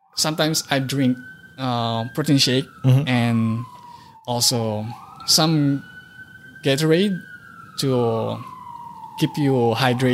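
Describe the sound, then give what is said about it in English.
Police sirens wail on a New York City street, a long tone sweeping up and down beneath steady, continuous conversation. “It's about that time in New York. From 2 to like 5 o'clock, there's always like sirens everywhere and stuff.”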